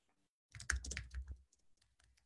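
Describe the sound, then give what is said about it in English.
A short, quick burst of computer keyboard typing, faint and alone, followed by a few softer key taps. “please, I'm going to type that in as well.”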